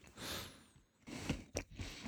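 Crunching and chewing of roasted nuts, lightly roasted and hard-shelled: a few sharp bites stand out over a steady rough mastication, fairly faint with no talking.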